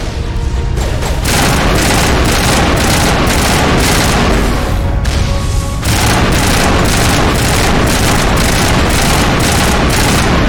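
Heavy video-game gunfire aimed at a heavy turret: loud, dense, rapid shots in long sustained bursts, separated by a couple of short breaks, with booming impacts mixed in.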